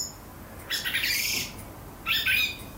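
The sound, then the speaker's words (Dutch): A blackbird singing quiet subsong, with soft, rambling high warbles and chirps in two short phrases over a steady background hiss. “hoort een merel die nog niet klaar is voor het voorjaar.”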